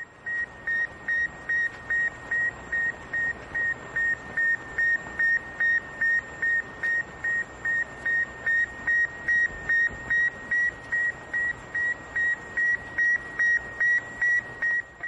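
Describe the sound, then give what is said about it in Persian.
Beeping radio transmitter of the Sputnik 1 satellite, the first artificial satellite in Earth orbit, in 1957: many short, evenly spaced high beeps in a steady rhythm over faint static hiss. “این صدای فرستنده کوچک رادیویی بود که بر عرشه اسپوتنیک 1، نخستین ماهواره ساخت بشر که به مدار زمین رفته بود، نصب شده بود”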